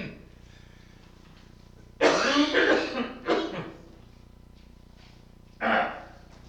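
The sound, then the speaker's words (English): A persistent cough from pollen allergy comes in a few harsh bursts: a rough cluster early on, a shorter hack soon after, and one more sharp cough near the end, each loud against a quiet background without talk. “the green pollen is out, folks, and my cough will be persistent, most likely between now and the time the green pollen stops, so please forgive me.”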